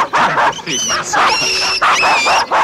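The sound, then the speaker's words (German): A small dog whimpers in high, thin whines that come in several bursts, with people talking at the same time. “Please look after my little hund. Jetzt hat sich der Hund eingewickelt.”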